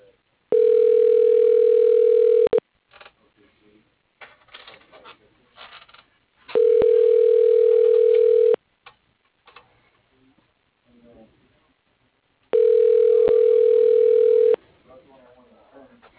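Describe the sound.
Ringback tone of a telephone call being transferred to another extension: three steady, even tones of about two seconds each, separated by longer pauses with faint low sounds between them.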